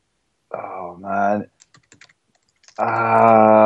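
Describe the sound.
Light clicks of typing on a computer keyboard, a brief scattered burst of several taps between stretches of people talking.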